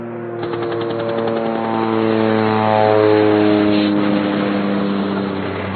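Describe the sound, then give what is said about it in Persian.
Engine drone of a fighter jet flying over a city: a loud, steady roar with layered humming tones that swells slightly near the middle and eases toward the end. “می گذرد جنگنده از آسمان شهر ما، به کدام سو می برد این تیر سه شعبه را؟”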